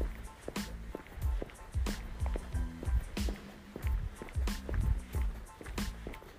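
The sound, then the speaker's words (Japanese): Footsteps of someone walking through a quiet rural village, a steady rhythm of many soft, low thuds that continues throughout. “もう20分ほど歩いてるとなかなか疲れてきましたね”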